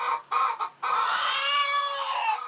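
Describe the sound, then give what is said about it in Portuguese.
Caged hens clucking inside a poultry shed used for egg production: a few short, sharp clucks, then a longer drawn-out call that carries on to the end, fairly loud and alone. “Nesse caso, as galinhas ficam presas em gaiolas dentro de galpões.”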